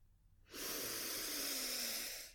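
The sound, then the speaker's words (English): A single deep breath during a rapid breathing exercise. A loud, steady airy rush starts abruptly and holds for about two seconds before easing slightly. “make sure you are completely filling up your lungs and quickly exhaling. Ready?”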